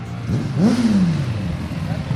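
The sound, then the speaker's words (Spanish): A motorcycle engine revs sharply upward and then winds back down over a busy background hum, as bikes gather in Jerez for the motorcycle Grand Prix. “Ya rugen las motos en Jerez, el puerto de Santa María y localidades aledañas. Este es el ambiente que espera hasta el domingo en la provincia.”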